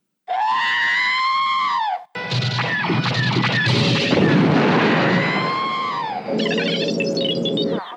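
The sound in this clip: A man screams to make a robot's scream effect, recorded in a basement. The screams are loud and shrill: a short scream, then a longer, harsher and rougher one, then a final strained burst.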